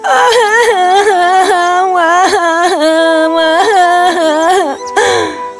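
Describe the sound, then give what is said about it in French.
A girl cries after hurting her knee in a fall: loud, sustained wailing sobs with repeated wavering cries that rise and fall in pitch, then break off near the end. “Alors, elle se mit à pleurer.”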